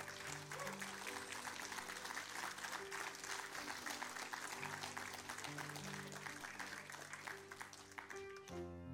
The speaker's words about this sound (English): So let's applaud them and all that they do.